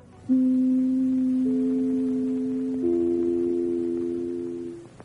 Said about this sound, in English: For being only three tiny notes, the NBC chimes have had a colossal impact on media and culture for nearly 90 years. It was back in the late 1920s when NBC started using this for the first time to identify itself on the